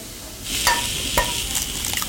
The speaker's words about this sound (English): Now, let's see. What, the egg now, right? Scrambled egg. Scrambled egg, okay.